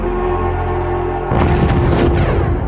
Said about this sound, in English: The guys are trying to get away, and they get blown up by some missile.